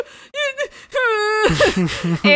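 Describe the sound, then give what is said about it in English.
A voice imitates a comic-book character bursting into tears, with drawn-out wavering wails and whimpers broken by sharp gasping breaths, then a rougher, sobbing stretch toward the end. “So then Chester, as Superman calls him, has a little diaper baby shit fit. And like legitimately starts crying.”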